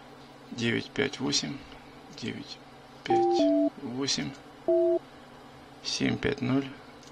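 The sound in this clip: Telephone keypad dialing tones as a number is dialed, three short, steady two-tone beeps, two close together and one after a pause, set between bursts of people talking.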